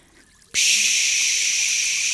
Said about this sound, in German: Papa bläst das Planschbecken auf. Pft, pft, pft, pft. Papa lässt Wasser einlaufen.